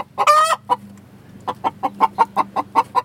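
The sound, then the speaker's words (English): Chickens clucking in a backyard coop, the hens about five months old. A couple of louder squawking clucks come first, then a steady, evenly spaced run of many short clucks. “the most wondrous thing is the sounds the chickens make. They typically sound like this.”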